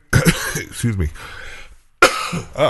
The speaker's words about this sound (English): didn't mean to cough. I didn't have time to hit the button.